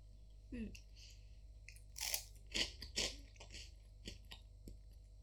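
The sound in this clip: Crunchy bites and chewing of a wasabi-flavored stick-shaped snack, a few sharp, crisp crunch bursts in quick succession between softer mouth sounds, all faint against a quiet, steady low hum.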